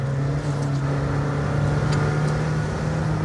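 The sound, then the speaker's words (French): Engine drone of a Senna hypercar running in fourth gear on a cold, wet track. The sound is loud, continuous and even, with a constant low hum and no voices. “Quatrième. Ouais, faut dire qu'on est, on est bien sous un temps anglais. Hein. Piste humide, bien froid. Je sais pas si c'est les conditions idéales, optimales pour tester une Senna.”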